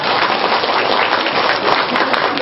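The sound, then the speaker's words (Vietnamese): Audience applause during a Buddhist teaching session: loud, dense clapping from many listeners, sustained evenly for about two and a half seconds with a slightly dull, muffled top end and no voices over it. “Vỗ tay đi, từ nay không có gì thắc mắc hết.”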